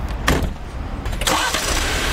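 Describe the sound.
A Jeep Wrangler engine starting, with a cranking burst that settles into a steady, rumbling run over broad engine noise, with a second surge partway through and no talk.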